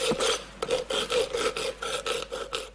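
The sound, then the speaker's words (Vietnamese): Rasping metal-working strokes from hand engraving of silver with chisel and hammer at a Cham family's traditional silver-carving home workshop in Khánh Hòa, Vietnam: a quick, uneven run of many scraping, hissing strokes, fairly steady in loudness and heard alone. “Đó là tiếng chạm khắc bạc”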